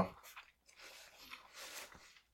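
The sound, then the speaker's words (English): Someone chews food with faint, soft, irregular crunching and mouth sounds over a couple of seconds. “I'm chewing.”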